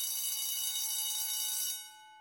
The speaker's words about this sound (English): Oh no, the bell. Break is over. We'll be late for maths.